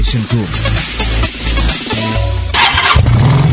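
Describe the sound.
A motorcycle engine cranks and starts in a battery advertisement, a loud, rough rumble that swells into a rev near the end.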